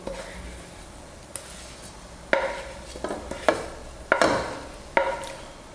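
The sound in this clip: Chorizo is added and stirred into risotto in a pan. Several sharp clinks and scrapes of a utensil against the pan come at irregular intervals over a faint, soft background hiss.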